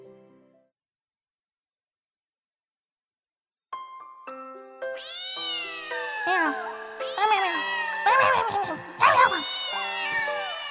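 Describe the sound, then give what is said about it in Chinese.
Kittens meowing: many high, overlapping mews that swell and repeat over a few seconds, with faint light jingling tones mixed in just before and alongside them. “你看这群小猫崽子怎么就不听话呢？”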